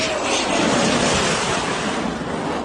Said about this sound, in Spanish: Esto que escuchas es el F-18 sobrevolando la bahía de San Lorenzo.